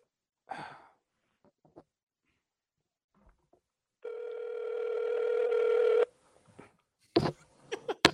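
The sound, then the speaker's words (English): Telephone ringback tone while waiting for someone to pick up a call on speaker: one sustained, buzzing ring of about two seconds. A soft sigh comes before it, and a few faint clicks and bumps follow. “I'm calling him right now. I'm so serious right now. Come on with it. Put him near the microphone so we can hear this. Put him on speaker too, man.”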